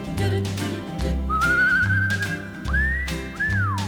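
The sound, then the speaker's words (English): A person whistling a tune over a song's backing music, with clear sustained notes that slide and rise in pitch above a steady rhythmic bass. “I'm just whistling words, whistling words.”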